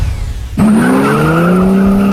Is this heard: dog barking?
no